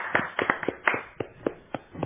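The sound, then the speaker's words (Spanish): A few people in a radio studio clapping for themselves, making sparse, uneven handclaps at moderate volume rather than a dense crowd ovation. “Ya está suficiente los aplausos, porque la radio nos dijo que nos tenemos que aplaudir a nosotros mismos.”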